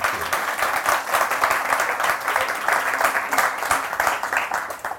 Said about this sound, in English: So, ladies and gentlemen, please put your hands together. Welcome, Simon Garfield.